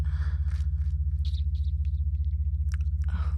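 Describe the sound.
Wet mouth sounds of tasting and sucking on fabric underwear. Scattered soft smacks and clicks sit over a loud, steady electrical hum.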